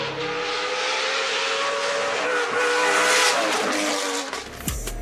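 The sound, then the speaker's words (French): The V8 engine of a Vantage GT4 rally car, built by a Finnish preparer and racing on tarmac at the 2017 Rallye du Var, roars loud and steady for about four seconds, then drops away with a short burst near the end. “Regardez et surtout, écoutez le son du V8.”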